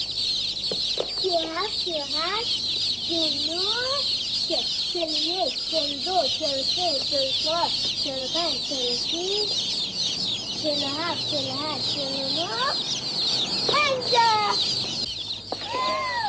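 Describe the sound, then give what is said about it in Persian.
Chickens clucking among a crowd of newly hatched chicks, many repeated clucks set over a continuous, high-pitched chorus of peeping that runs throughout. “هرچی تخمه مرغ داشتیم یهو ناغافلی شدن جوجه”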